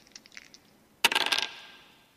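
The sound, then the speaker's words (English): Dice roll as a signal in a tabletop game session, a few light ticks and then a sudden burst of rattling clatter that fades into a short ringing tail. “That's the signal for some die roll.”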